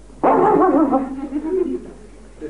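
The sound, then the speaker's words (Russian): A human voice imitates a small puppy barking with one drawn-out, yapping cry that starts loud and fades over about a second and a half. “He found a fresh new little Sobaka. Но он нашел молодую собачку. And that little Sobaka looked at Narada and went.”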